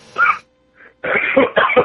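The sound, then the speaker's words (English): Quick coughing from a man: a few short, harsh coughs and throat-clearing bursts, loud and bunched together after a brief pause near the start. “This guy, quick coughing.”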